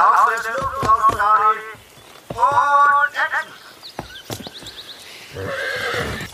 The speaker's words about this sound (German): Die Pferde benehmen sich vorbildlich.